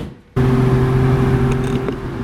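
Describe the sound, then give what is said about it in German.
A black Mercedes with whitewall tyres revs at full throttle on a test drive. The engine drone starts abruptly and holds loud and steady, with a low humming tone throughout. “Und jetzt hast du gerade mal hier mal richtig Vollgas gegeben, beziehungsweise geben lassen.”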